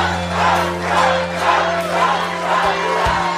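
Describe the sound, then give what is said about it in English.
A large crowd cheers and chants as Donald Trump walks out: a dense, steady roar of many voices with rhythmic swells rising and falling throughout. “President Donald Trump walked out to an adoring, cheering,”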